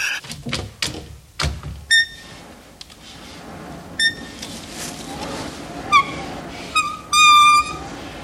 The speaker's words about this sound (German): Nun, das Fenster. Ganz behutsam. Dass es nicht wieder wie eine verräterische Elster knarrt. Das Fenster.